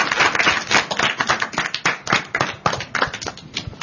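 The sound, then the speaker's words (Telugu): An audience at a quiz event claps in a dense, continuous round of applause. Many overlapping hand claps hold a steady level the whole way through. “Very good, very good. చప్పట్లు కొట్టండి చక్కగా.”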